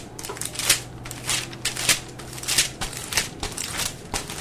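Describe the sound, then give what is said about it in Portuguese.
Magazine pages flipped rapidly give many papery rustles and snaps in a quick, steady rhythm. The sound is moderately loud, with no voices. “Se você continuar passando as páginas assim, a revista vai rasgar.”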